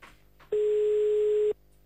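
A single telephone ringback tone sounds while a call is placed to a number in Brussels: a steady, mid-pitched electronic beep lasting about one second, set between quiet stretches of open line.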